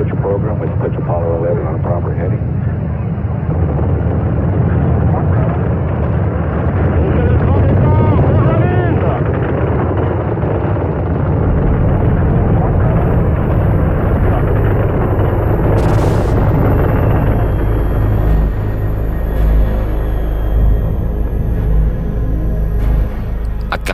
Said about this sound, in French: Et à 100 km à la ronde, la Terre tremble sous les 35 000 tonnes de poussée des moteurs du premier étage